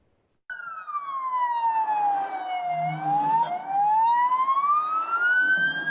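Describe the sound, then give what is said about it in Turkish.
An ambulance siren wails in heavy traffic near a tunnel, starting abruptly. Its loud, steady tone slides down in pitch, then sweeps back up over a low traffic rumble. “O an bir ambulanstan yükselen siren sesini duydu.”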